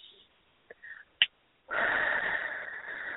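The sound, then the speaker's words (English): A long, deep breath drawn in, heard as a steady airy rush that holds to the end. It follows a few small clicks and a brief soft sniff. “So can everybody take another deep breath in?”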